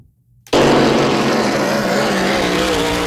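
Hydroplane racing boats roar at the Cocagne regatta on the Cocagne River: a brief quiet gives way to an abrupt, loud, sustained engine roar that holds steady to the end.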